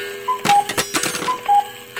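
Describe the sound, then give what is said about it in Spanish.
A medicine reminder alarm going off: two pairs of short, high electronic chirps, each pair a quick two-note blip, sounding over a pattern of sharp ticking clicks. “Es la alarma de mi medicina. Esta vez no se me pasará.”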